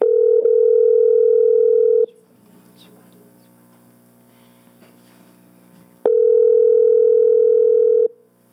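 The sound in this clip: A steady telephone dial tone sounds on a call line in two loud, unbroken stretches of about two seconds each. Between them comes a quieter gap of faint noise.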